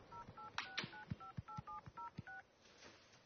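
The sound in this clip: A telephone number dialed on a touch-tone keypad: a quick, evenly spaced run of many short dual-tone beeps, each with a faint key click, then a soft hiss.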